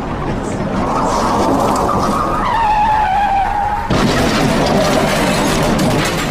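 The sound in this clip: A car skids to a stop, its tires squealing over loud, broad roaring noise. The squeal cuts off sharply partway through, and the rough noise continues afterward.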